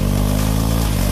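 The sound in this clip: A BMW motorcycle engine runs loud with a dense, steady, low throb over a brief moment.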